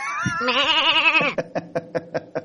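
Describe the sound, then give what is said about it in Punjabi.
An old she-goat bleats a long, wavering, quavering call, then breaks into a quick run of short stuttering pulses that trail off. “ਇਹ ਬੱਕਰੀ ਜਿਹੜੀ ਹੈਗੀ ਬੁੱਢੀ ਸੀ ਬੁੱਢੀ ਹੋਣ ਕਰਕੇ ਇਹ ਚੀੜੀ ਆ ਜੀ”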